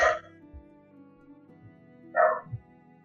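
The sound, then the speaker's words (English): A dog barks at a neighbor arriving home: two short, loud bursts of barking about two seconds apart, with soft low thumps between them. “Sorry if you hear my dog barking like a jerk. My neighbor just came home, and he thinks we're about to be murdered.”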